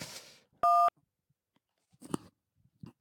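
A single short, loud dual-tone telephone keypad beep sounds while a call is being placed. After a pause come a few faint clicks and rustles.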